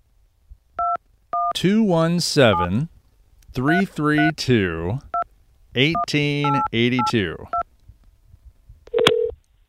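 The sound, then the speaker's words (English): A phone number is dialed, producing a series of short, high touch-tone beeps. A voice talks between and around the beeps. “So let's give it a dial here and see what happens.”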